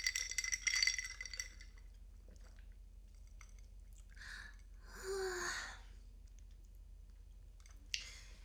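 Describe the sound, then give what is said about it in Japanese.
Faint chewing and mouth noises of someone eating, scattered across a quiet stretch, with a short rattling burst at the start and a brief click near the end; no one talks. “なんか食べてるだけ、ごめんね。”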